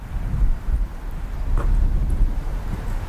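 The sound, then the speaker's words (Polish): Wind blowing between city buildings buffets the microphone in a steady, low rumble with gusty swells that rise and ease, and no voices. “I tutaj też zawsze wieje, jakoś tak tutaj między budynkami wieje.”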